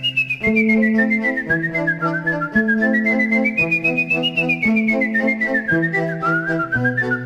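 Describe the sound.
A person whistles a clear, high, wavering melody with a choir group, over steady lower tones that shift in steps every second or so; no one speaks.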